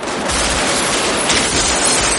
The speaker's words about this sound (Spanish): Chris avanza y revienta varias lunas. Neil corre. Vincent se asoma y dispara. Le sigue corriendo.